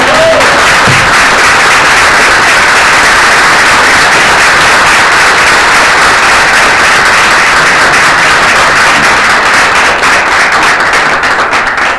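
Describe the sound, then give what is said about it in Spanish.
Dense, sustained applause from an audience at the close of a talk on women and social reproduction, loud and steady with many overlapping claps across the whole span and no pause. “darle otro aplauso por esta.”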